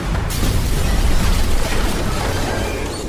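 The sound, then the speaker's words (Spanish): A car explosion: a sudden loud burst just after the start, then a heavy sustained roar and rumble that stays loud to the end. “El auto de Simón explota.”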